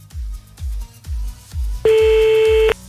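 A telephone dialing back a caller: a run of regular low pulses, then a steady electronic tone that holds for under a second before cutting off, with no voices.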